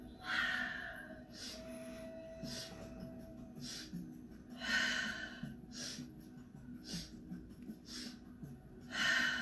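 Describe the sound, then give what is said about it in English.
Three-part breathing, with sharp sniffed inhales through the nostrils and breathy exhales through the mouth, repeating in a rhythmic pattern at moderate loudness and without talk. “a three-part breath, inhaling through the nostrils three times and exhaling out the mouth. So we inhale, inhale, inhale.”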